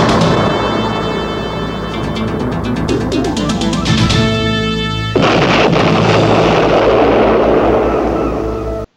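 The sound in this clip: A vehicle blows up in an animated film action scene: tonal music gives way to a sudden loud blast that rolls into a sustained, rumbling roar.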